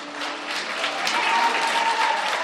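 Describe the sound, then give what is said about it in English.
An enraptured cinema audience in Selma applauds and cheers in a dense, continuous wash of clapping that swells slightly toward the end. “Inside, the audience is enraptured. They cheer, they sigh, and when the credits roll,”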